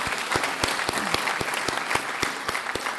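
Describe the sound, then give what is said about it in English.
An audience applauds trustees and supporters at a morning lecture program, a steady, dense clatter of many hands clapping with sharp individual claps standing out throughout. “Let's give them all a great hand.”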